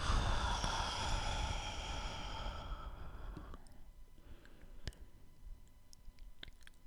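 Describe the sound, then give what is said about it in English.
An audible exhale pushed through the back of the throat during a breathing exercise: a long, breathy rushing hiss that fades away after about three seconds, followed by a few faint scattered clicks in near quiet. “Breathe in through the nose, move the breath to the back of the throat, and exhale, making an audible sound.”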